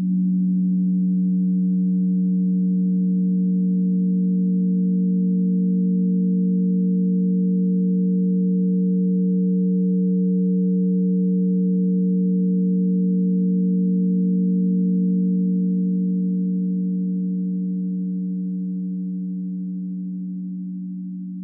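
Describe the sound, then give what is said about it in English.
A sonification of Jupiter's orbit and rotation forms a steady, low electronic drone of layered pure tones. It holds unchanged for a long stretch, then slowly fades in the last few seconds. “I've also been creating sonifications of the planet's orbit and rotation.”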